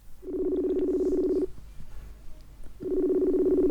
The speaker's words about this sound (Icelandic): Ég hringi í hana í gegnum Messenger.